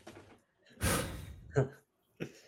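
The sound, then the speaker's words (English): A big, deliberate breath taken to calm down after watching a tense 2-2 football draw against Arsenal: a loud, airy rush lasting about half a second, followed by a couple of short, breathy vocal sounds. “Let me just get myself composed here so I don't, just big breath.”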